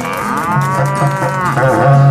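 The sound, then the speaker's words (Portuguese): A berrante, the long cattle-call horn, is blown in one sustained, loud, low blaring tone rich in harmonics. It wavers slightly and swells a little toward the end. “Toca o berrante”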